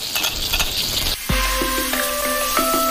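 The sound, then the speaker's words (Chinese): Pickled greens sizzle as they are stir-fried in mountain pepper oil, giving a loud, steady hiss and crackle with no voices. “用山胡椒油爆香酸菜，再加上大量的蒜末”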